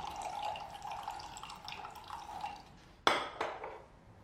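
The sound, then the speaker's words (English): Coffee is poured, a steady, quiet liquid trickle that runs for a few seconds, followed by two sharp clinks like crockery. “Lucy smiles as Adrian pours coffee”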